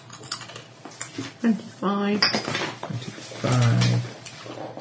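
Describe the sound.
Dice clatter during a tabletop role-playing game session, with quick bursts of clicking rattles under people talking.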